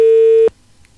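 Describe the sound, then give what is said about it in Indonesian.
A busy tone sounds on a telephone line after a call drops: a single loud, steady beep that lasts about half a second and then cuts off into near silence. “Kita terputus di line telepon.”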